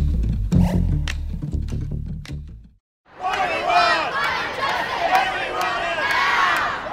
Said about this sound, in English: And this is the sound of Foley Square in downtown Manhattan Friday, not far from our offices, the epicenter of a worldwide climate strike